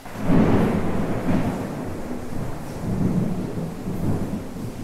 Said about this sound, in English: Oh, that's the thunder.